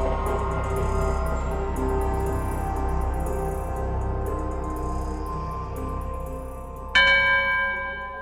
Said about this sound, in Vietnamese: Tiếng chuông ngân nga trầm bổng len lỏi qua từng tán cây liễu được trồng hai bên cổng chùa.